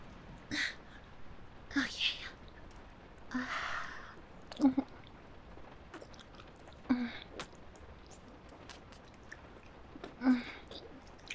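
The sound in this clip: Chewing and mouth sounds as someone tastes food that is hard to get their mouth around: several soft, moist bursts at irregular intervals against a quiet background.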